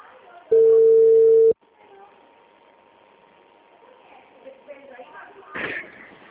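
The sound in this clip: A single steady telephone ring tone heard on a call, about one second long and loud. A faint low hum follows, then a brief rustle near the end.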